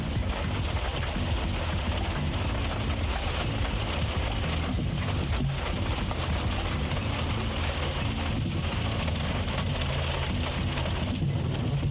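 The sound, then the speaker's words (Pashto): Heavy rain pouring down in Dallas, Texas: a dense, steady hiss of drops drumming on surfaces, loud and constant throughout with no voices. “داسې شدید باران دی کله ډېر زیات شي کله کم شي”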